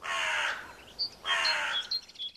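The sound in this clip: Crow cawing: two harsh, drawn-out caws separated by a short pause, with a few brief higher chirps in between and at the end.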